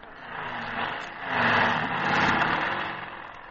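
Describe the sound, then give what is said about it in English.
A motorcycle engine is started by accident, giving a steady rumbling drone that swells louder around the middle and then eases off toward the end, with no voices. “A very noisy windshield wiper. Joni, you started the motor. Turn it off.”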